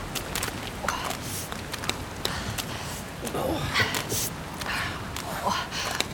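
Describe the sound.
Footsteps walking over to a ridge in an audio drama, many steady crunching steps with soft breathing sounds mixed in.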